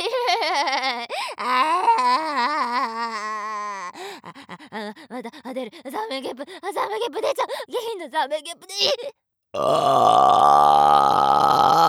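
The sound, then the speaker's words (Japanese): A person lets out loud, drawn-out burps and groaning belches. They are voiced and rumbling with wavering pitch and run almost without a break. After a short silence comes a final harsh, sustained belch. “また出ちゃう出ちゃう動かないで胃の中で暴れられたらまたバカみたいにでかいザメゲップ出ちゃうよ”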